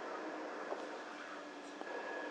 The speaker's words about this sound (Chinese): 列车即将到达金安桥站。 We are now arriving at 金安桥。